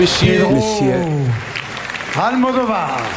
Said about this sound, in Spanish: y es la séptima vez que cruza la pasarela o la alfombra roja del Teatro Lumière del Festival de Cannes, y vamos a escuchar la ovación que recibió.